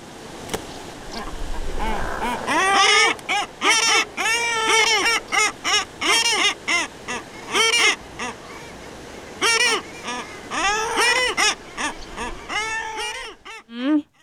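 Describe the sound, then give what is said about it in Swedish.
An upset common guillemot in a colony gives many loud, harsh, honking and growling calls in quick bursts, with short pauses between them. “Sist här lät det från en upprörd sillgrissla tydligen. Klagar på grannen.”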